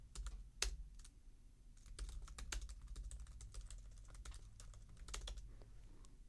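Typing on a computer keyboard: many rapid, sharp keystrokes in an uneven, busy clatter over a low steady hum. No talking is heard.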